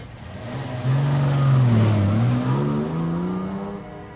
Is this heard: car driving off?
yes